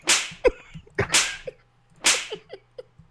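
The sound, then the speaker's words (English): Gunshot sound effects: three sharp, loud bursts with short fading tails, separated by smaller clicks, with no talk over them. “I told you we needed a gun sound on here.”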